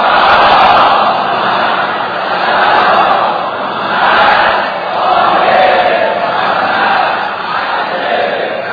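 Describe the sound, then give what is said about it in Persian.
A dense crowd of pilgrims at the Imam Reza shrine on the night of his birth anniversary roars with many voices, the loud mass of sound swelling and ebbing in slow waves about every two seconds. “الان اینجا جمعیت متراکمه، شما بزرگواران و زائرین حرم مطهر حضرت علی ابن موسی رضا صلوات الله و سلام علیه”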